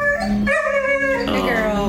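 Dogs howl and whine at an animal shelter in Salem, in a continuous loud stretch of overlapping, drawn-out, wavering cries whose pitch keeps shifting up and down.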